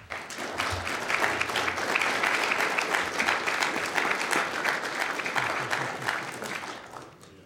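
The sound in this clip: Audience applause welcomes a speaker at the Miller Center: dense, steady clapping from many hands holds strong for about seven seconds before tapering off at the end.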